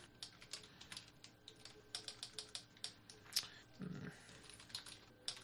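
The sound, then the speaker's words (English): Typing on a Windows laptop keyboard, with many quick, faint key clicks in an irregular, busy run that continues throughout without talk. “I just tried to command paste on my Windows laptop. Or Command-V to paste.”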